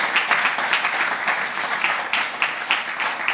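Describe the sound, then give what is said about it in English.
Audience applause welcoming a speaker at a talk, continuous crowd clapping with a dense, crackling texture and small swells, holding a fairly even level throughout with no voices. “So please give a very warm welcome to Narayani.”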